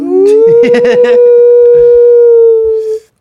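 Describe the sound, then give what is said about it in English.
A long, steady howl, named as a grey wolf, holds one sustained tone for about three seconds and then cuts off. Voices talk briefly over its opening. “Grey Wolf sounds Ooh. Awesome. That's Grey Wolf.”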